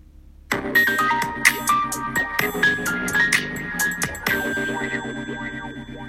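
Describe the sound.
A bright jingle for a talk-radio show starts after a brief quiet moment. Chiming, bell-like tones and tinkling notes sound over fuller music, which carries on to the end.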